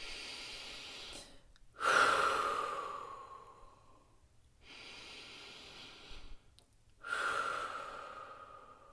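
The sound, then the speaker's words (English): Slow, deep breaths taken in a guided relaxation exercise: long, airy inhales alternate with louder, breathy exhales that fade out gradually, with pauses between them. “Ready? Deep breath. Let's do three of them.”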